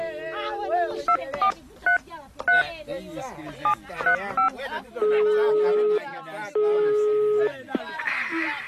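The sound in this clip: Keypad tones as a telephone number is dialed to place a call: a string of short, bright electronic beeps at uneven intervals, then two longer steady tones, all over background voices and sound.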